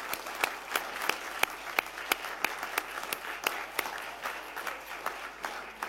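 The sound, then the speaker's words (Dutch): An audience at a council meeting applauds newly installed council members, a steady wash of clapping with many distinct sharp claps standing out, moderately loud and unbroken for several seconds. “En ik wil u van harte feliciteren. En u mag best even ja applaudisseren.”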